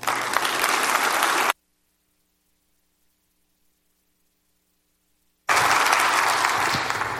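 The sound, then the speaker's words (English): A church audience applauds a guest speaker in two bursts of broad, hissing clapping, separated by a few seconds of silence. “So would you please put your hands together and give a very warm welcome to our friend, Mr. Joe Dillon.”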